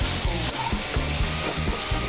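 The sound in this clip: Curry paste with chili and pork stir-fried in a pan sizzles steadily, broken by a regular run of scraping stirring strokes that keep a loud, even frying hiss going throughout.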